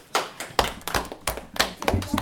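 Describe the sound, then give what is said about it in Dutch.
Scattered hand claps from an audience, irregular and fairly loud, with uneven bursts and a few sharper slaps, while voices mix in briefly. “Even applaus allemaal.”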